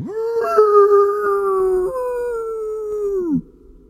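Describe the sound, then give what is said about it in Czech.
A large grey dog-like animal howls in the distance by a forest path: one long, steady, tonal howl held for several seconds, a little lower in its second half before falling away and ending abruptly. “v dálce něco tiše zavilo.”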